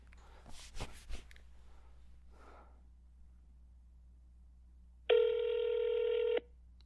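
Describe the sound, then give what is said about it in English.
A telephone number is dialed: a few soft clicks, then a quiet pause, then one loud, steady electronic phone tone that holds for just over a second before cutting off. “Did I dial it wrong? I dialed it wrong.”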